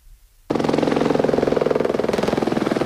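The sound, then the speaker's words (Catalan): Helicopters flying repeated water-drop runs over a wildfire: a rapid, steady rotor chop that cuts in abruptly after a moment of near quiet and keeps thudding loudly and evenly to the end. “És el soroll dels helicòpters que estan fent viatges constants per descarregar aigua a la zona de l'incendi.”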